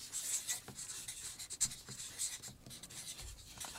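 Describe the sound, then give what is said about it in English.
Pen scratching as someone writes a word on a card, a quiet series of short, dry strokes with brief pauses between them and no talking. “On the third card, write secret.”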